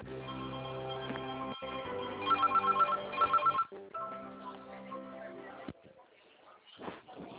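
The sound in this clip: Telephone ringing tone on a bank's credit call-center line while the call is transferred to an agent. Narrowband phone audio carries a tonal hold melody, broken midway by two clusters of rapid pulsed rings.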